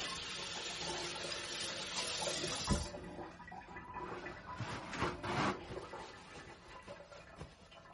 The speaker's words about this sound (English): let me just rinse off my hand because I've got garlic olive oil all over my hands.